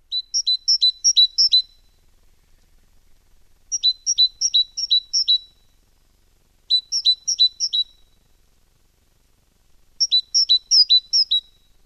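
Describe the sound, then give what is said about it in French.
A small great tit sings a bright, high, rhythmic phrase of rapidly repeated paired notes, delivered in four clear bursts separated by short pauses, loud and alone with no other sounds. “Mésange charbonnière, 12 cm.”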